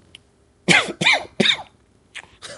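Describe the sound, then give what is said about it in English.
A person coughs in a burst of three loud, harsh coughs in quick succession, then two softer coughs after a short pause. A faint click is heard just before the burst, and no one speaks. “I apologize for all these coughs. I know it's maybe annoying to listen to.”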